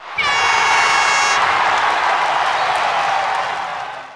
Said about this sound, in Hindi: इनके लिए जोरदार तालियां।